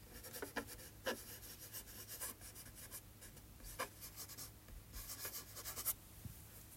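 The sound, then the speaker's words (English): A pen writes by hand on paper, giving many short, faint scratching strokes in an irregular rhythm, with a few sharper scrapes. No voices are heard. “Here, I'll write it down for you.”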